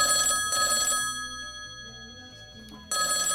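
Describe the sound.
A telephone rings with an incoming call: two short bright ring bursts, then a quieter pause, then another ring at the end.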